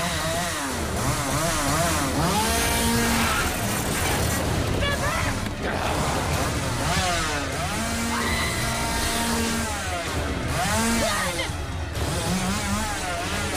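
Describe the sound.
A chainsaw engine revs hard and repeatedly, its whining pitch swinging up and down in waves, as the running saw is blocked with a metal drum during an attack. The loud, buzzing drone continues without pause.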